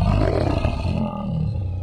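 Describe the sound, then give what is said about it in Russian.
A brown bear's deep roar rumbles loud and unbroken for about two seconds. The rough, throaty growl dips briefly near the middle, then carries on at nearly the same strength. “Вылез бурый тут медведь, да как начал вдруг реветь.”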